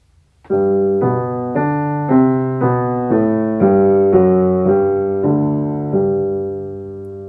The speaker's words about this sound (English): Here's the warm-up in G major.